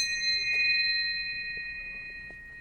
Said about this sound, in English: That is the sound of a bell from the city of Nagasaki.